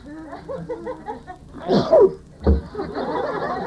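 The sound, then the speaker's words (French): A man sneezes during a lecture, with a sudden loud burst and breathy, gasping bursts following it. Brief talk comes before the sneeze. “Je l'avertis, je vais éternuer. Je le sens.”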